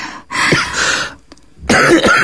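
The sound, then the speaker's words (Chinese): A person with a tight, congested chest coughs harshly in two loud bursts, with a short gap between them. “我就是胸口堵得慌，光咳嗽了”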